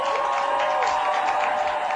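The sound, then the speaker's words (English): Crowd applause and cheering sound effect celebrating a Baltimore Ravens football win, a steady wash of clapping with a sustained tone running through it, even in level throughout. “Oh, let's give a round of applause for the Baltimore Ravens.”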